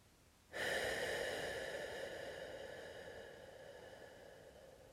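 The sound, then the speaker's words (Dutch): A deep breath during a guided relaxation with eyes closed: one long, airy breath that starts abruptly, then slowly fades over about four seconds, faint and alone. “Adem een keer diep in en uit.”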